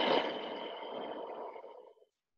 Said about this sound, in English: Breathe in. Empty out.